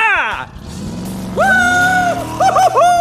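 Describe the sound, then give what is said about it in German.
Engine of Lightning McQueen, the red race car from Cars, speeding through a canyon: loud high whining tones that sweep up and drop in quick repeated passes, alongside talk. “Wir alle kennen dieses Geräusch. Ein roter Blitz, dem das Auge kaum folgen kann. Lightning McQueen, unser liebster Rennwagen, brettert durch den Canyon und freut sich des Lebens.”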